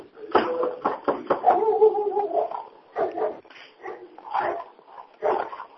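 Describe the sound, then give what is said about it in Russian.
A dog barks loudly and irregularly in a series of short, rough barks mixed with whimpering yips, with brief pauses between bursts. “Там собачка, да?”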